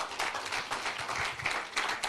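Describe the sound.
Audience applause at a church service welcomes a pastor to the pulpit, a quiet, steady patter of many hands clapping without pause for about two seconds.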